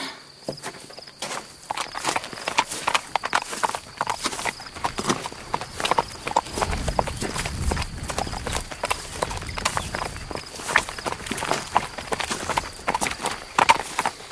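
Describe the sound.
Mule hooves clip-clopping steadily along a path, many sharp, uneven hoofbeats continuing throughout with a faint, steady high chirring underneath.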